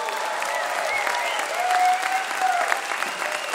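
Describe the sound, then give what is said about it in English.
Warm audience applause welcoming a band back to Mountain Stage, sustained and dense with an even level and a few faint whistles within the clapping. “And that, ladies and gentlemen, in the radio audience, is the sound of us being warmly welcomed once again.”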